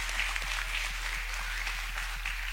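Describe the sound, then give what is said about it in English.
Applause from a church audience, a steady, even wash of many hands clapping that holds at a constant level from start to finish with no pauses. “Will y'all give them just some applause?”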